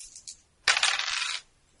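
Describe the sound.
Dice rolled during a tabletop game, a D8 and a D6 thrown together: one short, fairly faint clattering burst lasting under a second, with no voices.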